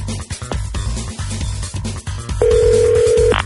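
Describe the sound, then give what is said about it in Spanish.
A telephone line gives a single steady ringback tone of about one second while a call is being placed, a flat mid-pitched buzz sitting over a dense, loud background. “Vamos a intentarle por esta. Lista, está llamando, ahí lista.”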